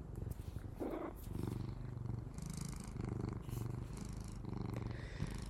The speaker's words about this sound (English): I love that you can hear him purring, for those of you that are commenting on that.